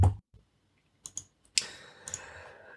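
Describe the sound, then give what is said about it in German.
A few soft, sharp clicks from a computer mouse clicking a link, spaced unevenly over an otherwise quiet background with no talking. “Wir klicken auf den ersten Link.”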